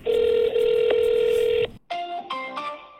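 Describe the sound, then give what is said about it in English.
Telephone tones during an attempt to reach a disconnected number: a long steady tone, a brief silence, then a short run of stepped dialing-like tones. “I've called every number I can find and what I know to be a good email address for Paul Maggiato and have had no luck getting through.”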